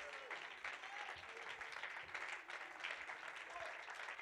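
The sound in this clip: An audience claps their hands during a church service, producing dense, steady applause that runs throughout at an even level, with a voice faintly audible beneath it.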